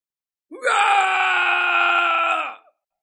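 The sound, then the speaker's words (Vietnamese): An old man's mournful, agonized cry as his body burns, rendered as a single sustained, strained vocal wail lasting about two seconds at steady loudness, with no other sounds around it. “Lão gầm thét một cách thê lương”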